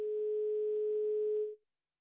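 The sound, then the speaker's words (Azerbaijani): A telephone tone from a failed call connection: one steady, mid-pitched electronic hum with faint overtones that holds evenly for about a second and a half and then cuts off into silence. “Telefon bağlantımız deyəsən alınmadı. Birazdan yenə cəhd eləyəcəyik.”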